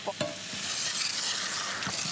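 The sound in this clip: Food sizzles and is stirred in a hot pan as a little liqueur is poured in, giving a steady, bright hiss of frying with a few brief scraping knocks scattered through it.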